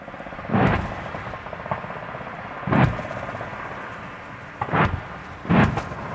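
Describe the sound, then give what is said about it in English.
Heavy booms from a military live fire exercise near Townsville, Queensland, Australia: four deep, loud blasts, each with a rumbling low tail, spread irregularly over a steady low background rumble. “That's the sound of a live fire exercise taking place near Townsville in Queensland, Australia.”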